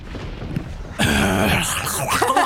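Someone hawking phlegm from the throat: a sudden loud, rasping, gurgling burst that grinds on for over a second with rough, wet texture.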